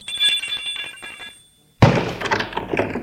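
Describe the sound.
An apartment doorbell gives a steady rattling metallic ring that stops. After a short silence comes a sudden thump and a burst of broad noise.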